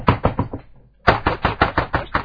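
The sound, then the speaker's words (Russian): Hurried knocking on a door: a short burst of loud, sharp raps, a brief pause, then a longer rapid run of knocks at an even pace. “Стук в дверь. Небезопасно, да. Какой стук? Вы можете, как какой? Торопливый,”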